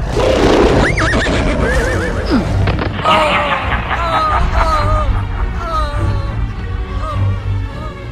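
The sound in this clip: A horse neighing amid hooves in a dramatic attack scene: several loud whinnies rise and waver over a dense, continuous rumble of stamping hooves.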